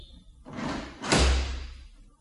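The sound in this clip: A door is unhooked and flung open in a panic: a soft scraping rustle followed by a louder, heavy thud that rings on briefly before fading.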